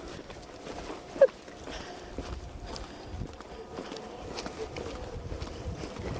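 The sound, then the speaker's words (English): Footsteps of people walking up a steep hill toward a checkpoint in Bethlehem, steady, soft steps under continuous outdoor noise, with one sharp click early on. “we're walking up a steep hill at the moment”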